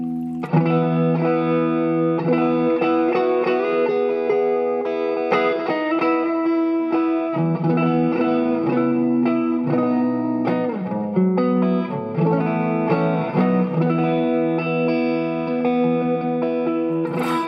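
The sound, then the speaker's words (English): An electric guitar runs through a Hardwire reverb pedal that gives a warm, lush tone. Sustained chords and single notes blur into a continuous, steady wash that stays loud throughout, with no speech. “this Hardwire Reverb that again has just been like a really, really warm sounding reverb.”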